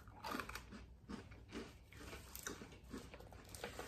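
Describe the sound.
Crisp biting and chewing of Osmo Hamburger snack crackers, small hamburger-shaped chocolate crackers, gives many close crunches and crackles in a steady, uneven rhythm with no talk.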